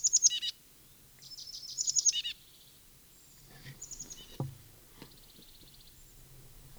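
A junco or titmouse gives faint, high, rapid trills in two bursts, one at the start and one around two seconds, followed by scattered quieter chirps over a near-silent background.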